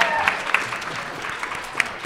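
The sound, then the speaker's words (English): An audience gives a round of applause, a steady wash of many hands clapping at even loudness, with a few brighter, sharper accents that pop out of the crowd sound. “give me all a round of applause”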